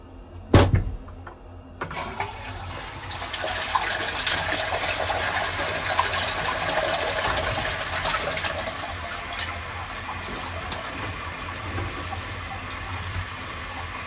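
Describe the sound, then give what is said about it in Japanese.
Water rushes out of a washbasin used for urine as it is flushed away, opening with a short knock. A loud, steady gush follows and carries on evenly to the end. “じゃあ流していきます。”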